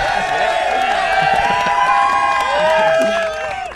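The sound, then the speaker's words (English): A live studio audience cheering wildly for a special guest at a Penn Relays show, a loud, sustained roar of overlapping shouts and whoops that eases slightly at the end. “we have audience right here going absolutely crazy because we have a very special guest today”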